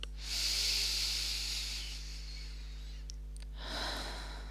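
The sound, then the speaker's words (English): A deep breath drawn in through the nose and released through the mouth: a long, soft, airy inhale, a pause, then a shorter breathy exhale, both faint over a low steady hum. “take a big deep breath in through the nose and out through the mouth”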